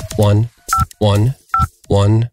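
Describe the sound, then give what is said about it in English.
A voice imitates telephone keypad tones while entering a voicemail password. It alternates three long, low hummed tones with two short, higher beeps, five sounds in all. “So I'm going to check my voicemail right now, putting in my password.”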